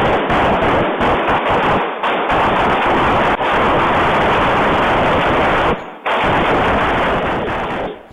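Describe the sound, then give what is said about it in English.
Rapid gunfire from the mass shooting in Dayton, Ohio: a loud, dense, nearly continuous barrage of shots with only a few brief breaks. “That was a bit of the sound of in Dayton, Ohio. You can imagine the commotion. Somebody opens fire like that.”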